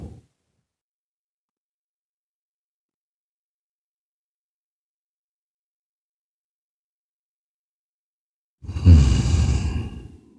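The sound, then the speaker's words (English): A deep breath is drawn in through the nose during a guided breathing exercise. A single breathy rush comes near the end after a long stretch of silence. “As we take that deep breath in, get nice and deep, inhaling through the nose, holding it for a second or two”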